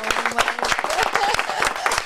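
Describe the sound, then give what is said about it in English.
Studio audience applause greeting a guest as she arrives: dense, loud clapping that fills the whole clip at an even level. “Ladies and gentlemen, big round of applause, my good friend, my sister, Miss Vina Morales.”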